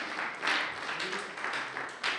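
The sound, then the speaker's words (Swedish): A church audience applauds during a service. The clapping is fairly faint and dense, with gentle swells in volume as it continues throughout. “Så det är fest här. En applåd! Halleluja!”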